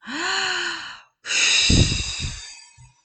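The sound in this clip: A person takes deep breaths during a guided breathing exercise: two long, breathy sounds separated by a short silence, the first carrying a faint voiced hum and the second rougher with some low rasp, fairly loud and without speech.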